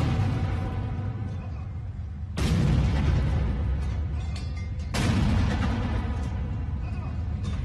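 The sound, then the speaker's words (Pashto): An army unit fires a 21-gun cannon salute after a presidential swearing-in. A few heavy booms land several seconds apart, each one sudden and loud, followed by a long, rumbling decay. “د حلف اوچتولو دستوري وروستو د پوځ یوې دستې دته د یویشتو توپونو سلامي ورکړه”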